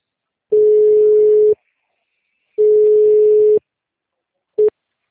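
Telephone line tones sound while a call is transferred: three steady, mid-pitched beeps separated by silence, the first two about a second long and the last very short.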